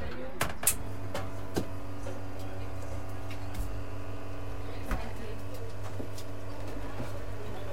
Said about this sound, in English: This is a cappuccino being made here on the machine in front of me, dribbling out, and the aroma is wafting off the coffee as the steam rises under our noses.